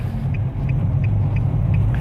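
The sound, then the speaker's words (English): Steady low road rumble inside a car driving through a snowstorm: a continuous engine and tyre drone with faint, evenly spaced ticks above it and no talk. “I'm just driving through a snowstorm”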